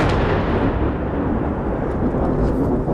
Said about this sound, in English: We've been here for about 10 minutes and there's been a wave of very intense Israeli airstrikes. We've just heard another one and we can see the plumes of smoke rising